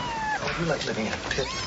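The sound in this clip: A cat meowing a few times, drawn-out and wavering cries overlapping with people talking.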